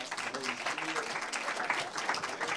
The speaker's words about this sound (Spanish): ¿Por qué no se ponen de pie junto conmigo? ¿Por qué no le dan un aplauso al Espíritu Santo?